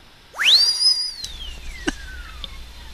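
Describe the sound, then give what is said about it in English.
A loud whistle sweeps sharply upward and holds high for a moment. It then glides slowly down in pitch and fades, with a few faint clicks behind it. “Oh, I'll take that whistle as a yes.”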